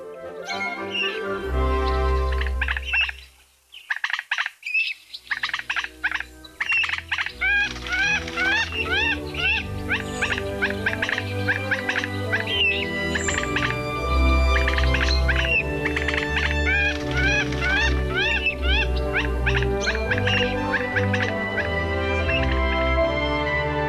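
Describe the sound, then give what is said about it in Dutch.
A pair of common moorhens with at least three chicks at a six-year-old toad pond, giving many rapid high chirps and clucking calls in a steady, busy chorus with a brief quiet gap early on. “Dinsdagmiddag, vast niet de eerstelingen van Nederland, maar wel in onze nu 6-jarige paddenpoel. Een koppel waterhoentjes met tenminste 3 jongen.”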